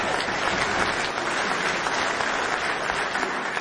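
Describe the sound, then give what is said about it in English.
Audience applause at a band's live show: dense, steady clapping that holds at an even, fairly loud level for the whole stretch, with no clear break or swell. “give yourselves a hand.”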